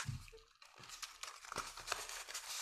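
Faint, irregular paper crinkling and rustling as a Christmas cracker paper hat is unfolded. The crackles come in a few soft, uneven bursts.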